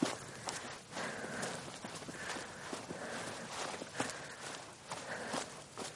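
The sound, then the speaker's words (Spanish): Faint footsteps of a woman in a long coat walking outdoors between apartment blocks, with many soft, evenly spaced steps in a steady rhythm. “Fuera, Agata camina entre los bloques de pisos.”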